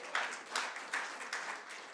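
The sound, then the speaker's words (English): Hand clapping from a church audience, faint and rhythmic, with a steady beat of evenly spaced broad claps. “Yeah, give the Lord a hand clap.”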